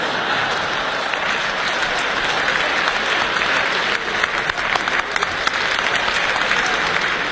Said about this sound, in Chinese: 谢谢大家的掌声，谢谢。